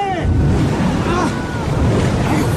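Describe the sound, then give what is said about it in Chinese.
Typhoon wind and torrential storm rain at sea make a loud, dense, unbroken roar, with surging waves washing through the steady noise from start to finish. “肆虐的台风一波比一波凶猛，倾盆的暴雨一阵比一阵急促”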